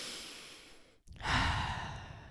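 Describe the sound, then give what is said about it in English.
Deep breathing during a guided group breathing exercise: a long, steady rush of breath, a brief silent pause, then a louder, fuller breath that slowly fades, with no talk. “So we're going to take two big breaths. So take one breath with me.”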